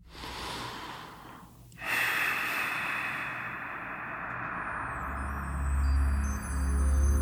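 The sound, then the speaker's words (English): A deep breath drawn in: a long, steady airy rush swells after a short pause and holds, with a low rumble underneath toward the end. “let's come away from all of that and take a deep breath.”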